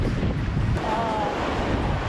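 Sea waves and wind out on open water: a steady, moderately loud rush of surf and blowing air with no distinct breaks.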